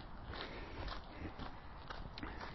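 Faint footsteps of someone walking on grass during recovery in a running workout, a few soft, evenly spaced thuds over low background noise.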